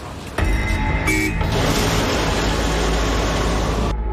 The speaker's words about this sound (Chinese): 车辆再次启动，虽然还是不太同步，但是跟上一次测试相比，掉队的距离好像缩短了一些。